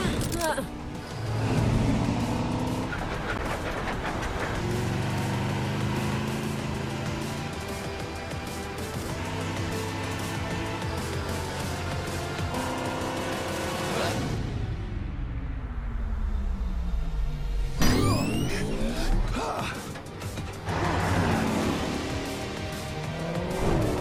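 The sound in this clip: A car driven in a video game gives off a steady droning engine note with shifting pitch. Partway through, a falling whine sweeps down before the busier game sound returns.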